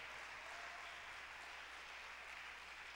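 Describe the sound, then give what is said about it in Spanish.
A church audience applauding loudly: a dense, continuous wash of clapping that holds a steady level throughout, with no pauses and no voices. “Los que lo creen, denle un aplauso a Dios bien fuerte”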